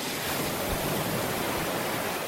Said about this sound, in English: Lovely waves on a gorgeous, sunny beach.